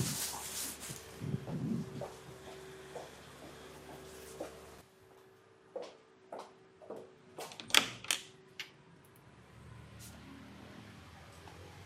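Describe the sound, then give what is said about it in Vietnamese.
A door being opened in an audio drama: a quiet sequence of sharp clicks, knocks and thumps spaced out over faint background hiss, with a brief cluster of stronger knocks near the end. “Mày mở cửa cho anh.”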